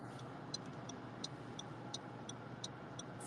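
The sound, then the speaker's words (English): A car driving, heard as a faint, steady low road rumble with soft, regular ticking clicks on top. “Oh, somebody's driving. Somebody Twitter space and driving.”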